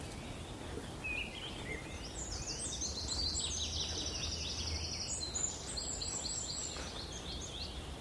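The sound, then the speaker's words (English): Wren and wood warbler song in woodland on Sugar Loaf mountain: faint, high, rapid chirps and trilled runs of notes that repeat throughout, over a low steady background rumble. “Funny, there's a bit of wren in the wood warbler's song. There's a wren there.”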